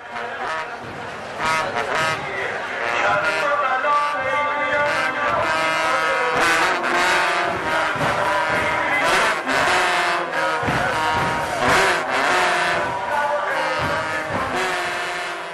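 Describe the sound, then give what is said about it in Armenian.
Shepor trumpets play for Shia mourning rites for Imam Hussein. Sustained, brassy, mournful notes are layered over many sharp percussive hits. “Այժմ առաջարկում ենք լսել շեփորի ձայնի մի հատվածը, որն օգտագործվում է Շիաների երրորդ առաջնորդ Իմամ Հոսեյնի սկո առողության ժամանակ։”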